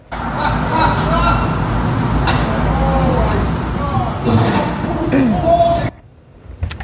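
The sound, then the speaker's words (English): Engine and rolling road noise of a car driven the wrong way down a flight of stairs at a downtown Vancouver hotel, a constant broad rumble under faint voices that cuts off abruptly near the end. “that is a wrong way driver driving down the stairs at the Sheraton Wall Center around 8 this morning”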